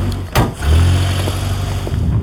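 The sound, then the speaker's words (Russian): A police service car's engine runs with a steady, low rumble that continues for about two seconds. “Итак, садимся в служебную машину.”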